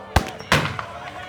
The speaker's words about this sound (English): A few isolated shots follow.